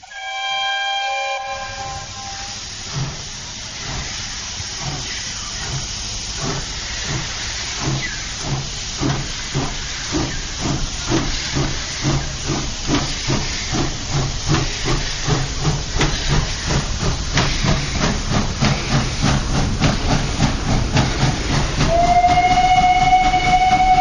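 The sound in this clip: A steam train leaving a station: a whistle blast, then hissing steam and rhythmic chuffs that grow steadily faster and louder, ending with another whistle, with no voices.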